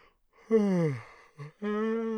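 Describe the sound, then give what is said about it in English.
A drawn-out voiced yawn whose tone falls in pitch, followed by a brief short vocal sound and then a steady, sustained voiced tone that holds to the end. “sorry about that. It's very interesting that I said when you're interested, I started to yawn, a sign of boredom.”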